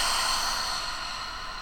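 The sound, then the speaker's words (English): Breathy exhale through an open mouth after a deep breath was held at the top: a soft, steady rush of air that fades gradually, faint and alone without talk. “Take a deep breath in. Excuse me, hold it at the top. Open your mouth and exhale.”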